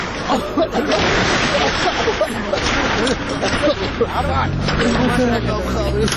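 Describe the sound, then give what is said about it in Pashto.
A container-like truck arriving, its low engine rumble growing toward the end beneath loud overlapping voices of a crowd. “والکان دا د موټر راغی”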